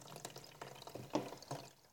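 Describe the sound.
Water pours into a container being filled up to its maximum level, giving faint, irregular splashing and gurgling bursts with one slightly stronger splash midway.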